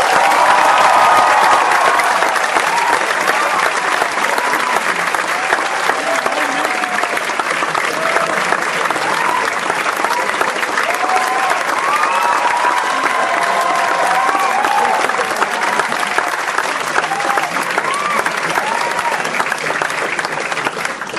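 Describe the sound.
An audience at LUMS applauds to welcome Imran Khan to the stage. The dense, even clapping is sustained and steady for the whole stretch, with a faint background murmur of the crowd.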